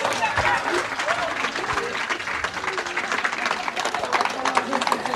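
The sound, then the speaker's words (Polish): Hands clap in thick, lively applause for a young woman, with voices mixed into the clatter and the loudness rippling unevenly throughout. “Brawa dla Kai.”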